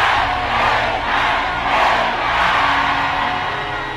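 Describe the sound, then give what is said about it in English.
Church audience shouting a threefold amen, a loud, dense roar of many voices rising and falling in a few swells across the stretch. “If you believe it, shout a threefold amen, somebody.”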